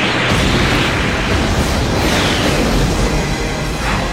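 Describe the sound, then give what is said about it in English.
A missile explodes during an attack on a base: a loud, sustained, roaring blast with deep rumbling that stays dense and heavy throughout, easing only slightly near the end. “the base is under missile attack from three directions.”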